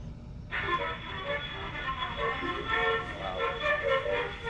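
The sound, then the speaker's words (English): A giant 2.5-foot-wide metal horn spins up and blares, starting abruptly after a short quiet and holding as a sustained, harmonically rich tone. “metal horn that almost looks cartoonish in relation to the scale. Very much so. Right. And it'll spin it up again, and you can hear the difference.”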